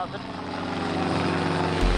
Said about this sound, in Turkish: Bugün, yarın için keşif yapmak üzere uçağıma biniyorum.